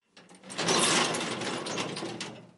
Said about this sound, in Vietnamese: Cửa sắt đóng lại